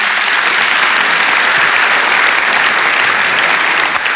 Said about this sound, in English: give this young man a round of applause